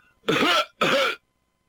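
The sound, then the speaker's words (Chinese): A man coughs twice, two loud, throaty, voiced coughs separated by a short pause, then silence. “人没露面，先咳嗽两声”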